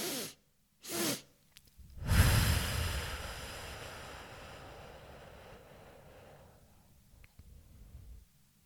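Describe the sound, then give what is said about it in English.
A physiological sigh, with a double inhale through the nose and a long exhale through the mouth: two quick, breathy sniffs, then a loud, airy exhale that starts strong and slowly fades over several seconds. “the physiological size when you do the double inhale through the nose and the lengthened exhale through the mouth”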